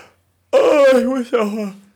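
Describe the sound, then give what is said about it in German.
A loud, overdriven and distorted voiced yawn, drawn out with a falling pitch, then a second, shorter groaning part that sinks lower and fades away. “dass ich heute zweites Mal schon gähnen muss, Leute. Ich hoffe, ihr pennt selbst nicht ein, weil man diese Müdigkeit ausstrahlt. Es hilft alles nichts. Ich glaube, der Gähner war so übersteuert, der ist bei mir völlig sonst wohin von der Kurve gegangen.”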